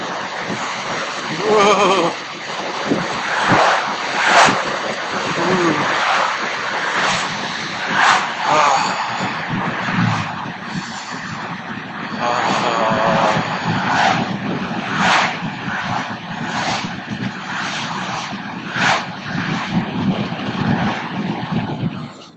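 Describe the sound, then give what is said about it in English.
Wind rushes through an open car window while driving in winter, a loud, broad, steady roar with fluctuating buffeting and a brief bit of speech early on. “So, I'm going to try the old open the window while driving in the winter time.”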